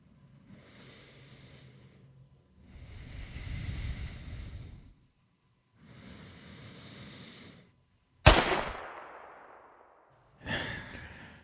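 A single sharp gunshot from a marksman firing at a man, cracking out suddenly and ringing off in a decaying tail, after a few soft breathy rustling stretches and followed by another brief noisy burst.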